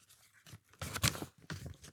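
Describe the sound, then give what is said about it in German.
Crinkly, crackling rustle of an old, rolled-up paper note being unrolled, with a few bursts of dry crackle, the loudest in the middle, heard alone. “Vielleicht könnt ihr mal diesen alten Zettel aufmachen. Dann mache ich den mal auf. Der ist so eingerollt, altes Papier.”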